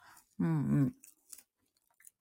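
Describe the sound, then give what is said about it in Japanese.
Someone eating roasted sweet potato: a short voiced hum of enjoyment, then a few soft, faint chewing clicks in near silence. “マジ焼き芋うまい。誰も食べないから私が食べちゃった。”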